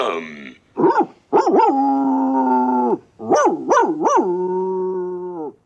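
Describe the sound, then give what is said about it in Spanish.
A dog howls, whimpers and barks in a patterned sequence: short yelps leading into a long held howl, then a few quick rising cries that stretch into a second drawn-out, steady howl, loud and alone. “Un aullido largo, dos cortos, un gemido y un guau.”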